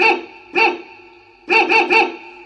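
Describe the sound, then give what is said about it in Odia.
A pet dog barks five times with sharp, ringing tones: two spaced barks, a pause, then a quick run of three. “ଆରେ ଏଇ ତ ଆମର ପୋଷା କୁକୁର ବୁଲା।”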